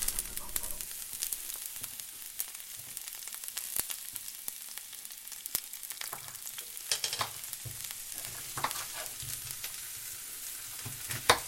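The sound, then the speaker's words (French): Onion fries in a pan with a steady, hissing sizzle and sharp crackles, broken now and then by stirring scrapes. “vais rajouter un oignon, j'aime bien l'oignon en fait. Ça donne du goût, en plus euh, j'aime bien l'odeur de l'oignon à la cuisson.”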